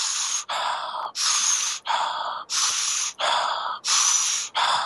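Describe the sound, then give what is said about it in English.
A person demonstrates yogic pranayama breathing with a quick series of loud, hissing breaths, each under a second, alternating between inhales and exhales of slightly different tone. “So my inhale, I'm going to be an U shape, and the exhale will be an R shape, so you can hear the difference.”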